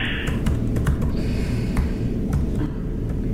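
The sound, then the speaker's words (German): Someone types an email on a computer keyboard. Many irregular, sharp key clicks patter over a steady low rumble. “Okay, dann schreibe ich erst eine E-Mail.”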